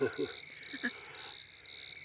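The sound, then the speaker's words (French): Bordeaux field crickets chirp on the ground as the ground temperature sits near 20.6 degrees and falls, giving four evenly spaced, high-pitched buzzing trills over a faint background. “Donc là on est entouré de grillons bordelais qu'on entend vibrer.”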